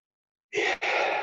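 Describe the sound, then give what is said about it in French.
A deep inhalation during a relaxation exercise bursts in after half a second of silence as a breathy, airy rush, breaks off for a split second, then resumes and holds steady to the end. “Et aujourd'hui, on va inspirer profondément”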